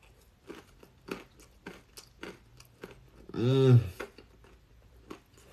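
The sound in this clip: Chewing on a bite of naan bread pizza: soft, crunchy mouth clicks repeat at an irregular pace, broken midway by a short voiced hum.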